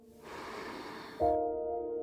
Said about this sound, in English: In with your breath, filling yourself up, and then letting it go.